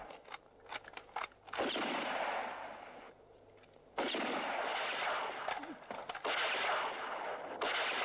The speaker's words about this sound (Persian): مامورا که جای اونها رو فهمیدن تیراندازی رو شروع میکنن. یاران دادشاه گلوله توی اسلحه میذارن. لحظه مامورین و لحظه یاغی‌ها تیراندازی میکنن.